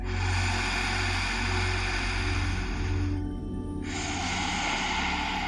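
A long breath during a guided Kapalabhati breathing session: a steady airy rush, a brief dip in the hiss about midway, then the rush resumes until the end. No distinct forceful pulses stand out.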